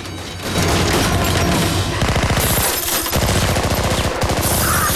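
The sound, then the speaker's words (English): Gunfire directed at a helicopter: loud, rapid bursts of automatic weapons fire crackle in dense, rattling volleys over a heavy low roar, with brief pauses between bursts. “Ethan and Luther run for cover and begin returning fire against the helicopter. Zen leaps from a vehicle and does likewise.”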